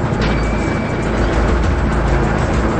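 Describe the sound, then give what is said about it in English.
A car's engine rumbles as it drives on at night, a steady, even, low noise that holds at one level without voices. “He drives on, his red taillights shining ominously in the darkness.”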